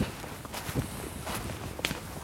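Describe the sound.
Footsteps of people walking outdoors at the Berlin city boundary: soft, irregular steps over a steady rush of outdoor background noise, faint throughout.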